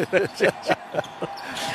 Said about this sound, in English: stutter steps with a dribble.